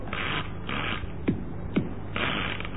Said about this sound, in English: All we do now is insert this card with today's date.